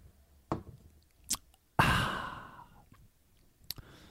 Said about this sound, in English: You can't see it because this is audio only. And we're going to taste it. All right. You guys listen in anticipation as I taste my beer.